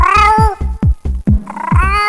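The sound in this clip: Cats meow in a quick, rhythmic string of many loud, whiny cries, each sliding down in pitch and some overlapping into a wailing caterwaul, with no talk.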